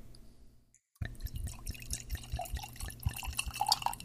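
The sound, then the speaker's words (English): A bottle of alcohol is opened and poured. After a short silence, liquid starts to trickle steadily, with many small drips and splashes running through the pour. “But first, we got to do the complimentary alcohol opener and pour.”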